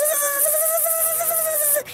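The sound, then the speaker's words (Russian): A mosquito squeaking as it flies out a window: a thin, steady, buzzing whine held for almost two seconds, then cutting off abruptly. “Вылетел комар в окно и запищал, что было сил.”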